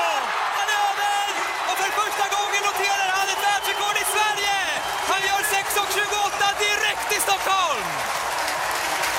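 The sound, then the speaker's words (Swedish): Stadium crowd screaming and cheering in Sweden as Mondo Duplantis sets a 6.28 m pole vault world record. A loud, unbroken roar runs throughout, with an excited commentator's voice riding over the crowd. “Han drar av sig tröjan och han jublar och hela publiken bara skriker, för Mondo Duplantis gör det äntligen i Sverige.”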